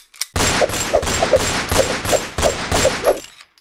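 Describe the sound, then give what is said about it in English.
Rapid gunfire rattles out in a few long, dense bursts separated by brief gaps, loud and sustained, with sharp overlapping shots and no voices. “He's dodging bullets, boss. I can't hit him!”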